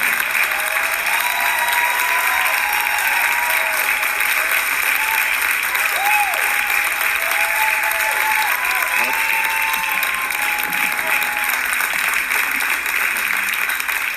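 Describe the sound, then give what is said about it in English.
A church audience applauds steadily to welcome Pastor John Gray at Relentless Church, with dense, sustained clapping and a few voices calling out over it. “Help me welcome right now one of the greatest gifts of God on the earth today, Pastor John Gray.”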